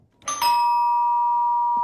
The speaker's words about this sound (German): Das Läuten. Das ist ja das eine, wenn es bei einem zu Hause läutet.